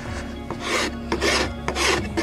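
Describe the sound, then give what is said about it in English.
A wooden bow being sanded by hand: rough rasping strokes in a steady back-and-forth rhythm, moderately loud, with no talking. “So I'm gonna go ahead and try and sand these out. Hopefully it doesn't break.”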